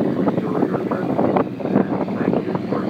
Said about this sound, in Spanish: Qué fresquito, qué airecito. Qué viento. ¿Aquí arriba?